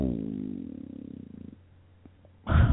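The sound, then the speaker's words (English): A domestic cat purrs in a low, rhythmic, pulsing rumble that fades out about halfway through, followed by a brief louder burst of noise at the end. “Oh, the cat. My mind got distracted because my cat came in.”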